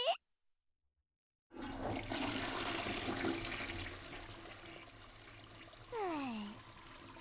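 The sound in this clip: A toilet flushes: after a moment of silence a rush of water starts, holds, then slowly eases, finishing with a short gurgling swirl as it drains.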